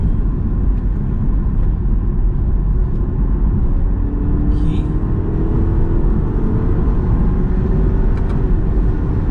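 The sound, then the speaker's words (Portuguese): A car engine drones steadily during a manual gear downshift, with a low, continuous rumble and an engine note that climbs gradually in pitch as the lower gear is engaged. “Eu tô agora, vou pôr aqui no, direção manual. Né? Vou reduzir uma marcha.”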